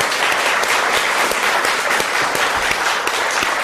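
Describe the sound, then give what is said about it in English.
Audience applause after a World AIDS Day speech, dense and steady clapping that stays loud and even throughout. “Well, thank you very, very much for that wonderful, warm welcome. And let's give it up for what a spectacular speech and opening for World AIDS Day.”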